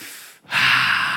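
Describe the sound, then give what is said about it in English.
A deep breath drawn in during a group breathing exercise: a short silence, then a single airy, fairly loud inhale lasting under a second, with no talking over it. “Everybody breathe real deep.”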